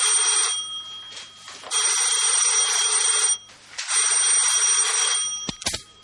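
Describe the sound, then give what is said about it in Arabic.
A telephone bell rings in an apartment, sounding in repeated bright, buzzing bursts separated by short pauses, then a few sharp clicks at the end. “حيث بدأت برنين جرس التليفون في شقة المجني عليهما زايد عبد اللطيف وليلى سعيد عبد الرحيم.”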